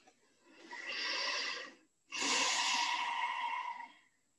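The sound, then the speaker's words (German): Deep breathing during a guided chakra meditation: two long, airy breaths, the second louder and longer, heard alone with no talk. “Atme in diesen Bereich jetzt direkt rein. Spür ganz tief hinein.”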